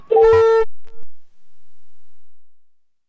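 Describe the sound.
A mobile phone call tone sounds as a short, loud, buzzy beep, followed by a much briefer, fainter blip and then silence.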